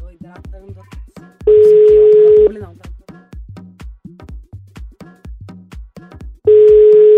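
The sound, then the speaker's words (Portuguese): Ringback tones of an outgoing telephone call being placed as a prank call to a man's wife: two long, steady, mid-pitched tones about five seconds apart over continuous pulsing background sound. “vamos tentar ligar pra esposa dele”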